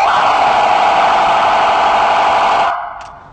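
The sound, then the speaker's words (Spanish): A police siren tone for traffic jams sounds as a loud, steady, buzzing drone at one pitch, holding unbroken for nearly three seconds before cutting off abruptly, leaving a faint tail. “este tono que a continuación te voy a mostrar es un tono para embotellamientos o cuando los vehículos no se mueven porque traes la música alta o porque traes tus vidrios arriba”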